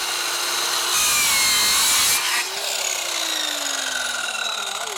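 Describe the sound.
A saw cuts through a wooden facade board and strikes a nail: steady rasping cuts, a louder harsh burst in the middle, then the tone changes to a thin whine that slowly falls in pitch as the blade meets the nail.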